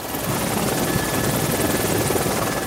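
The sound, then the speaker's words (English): A helicopter flies above the city, its rotor and engine giving a loud, steady, buzzing throb that stays even throughout, with no voices over it. “We're flying over you. I don't know if you can hear me.”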